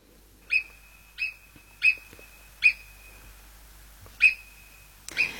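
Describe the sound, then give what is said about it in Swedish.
A marmot calling: six sharp, high-pitched whistles, each short and clear, spaced by pauses of uneven length over a quiet background. “Rätt svar är murmeldjur.”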